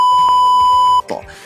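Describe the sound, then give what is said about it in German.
A censor bleep sounds as one loud, steady, high-pitched electronic tone lasting about a second, then cuts off abruptly into a brief soft rustle. “Das müssen wir jetzt eigentlich piepsen.”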